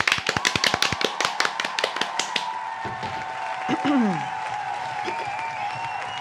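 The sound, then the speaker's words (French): Applause for a game-show champion: many sharp claps in a quick, irregular run that thins out after about two seconds, leaving a steady tone and voice-like sounds. “je vous demande une véritable ovation pour notre super championne et sa concurrente.”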